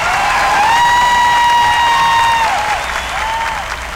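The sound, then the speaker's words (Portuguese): An audience gives a loud round of applause, with a long held, whoop-like cheering tone riding over it that drops away. A shorter cheer follows near the end as the clapping continues. “uma salva de palmas, Sabino Melo.”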